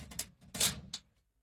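A door being locked gives a short run of faint clicks and a small rattle, then falls silent.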